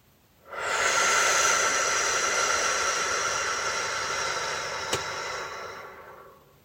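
A slow, deep breath during a nighttime meditation: one long, soft, hissing breath lasting about six seconds, even at first and then gradually fading away.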